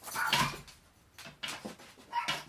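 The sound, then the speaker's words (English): Dogs whimpering, with a few short bursts of faint, high-pitched whining and yipping separated by quiet gaps. “I'm sorry for the dogs”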